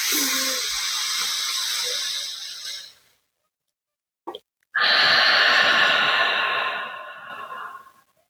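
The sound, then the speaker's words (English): Deep, airy breathing during a breathing exercise: two long, breathy whooshes of about three seconds each, separated by a short silence. The breaths are soft and smooth, with no talking. “With this inhale, I want you to see how deep you can get the air.”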